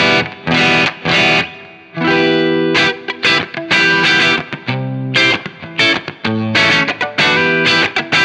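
Distorted electric guitar through an amp with the treble turned down to zero, giving a darker, duller tone; a busy riff of many short chords and notes, loud and choppy, with brief gaps between phrases.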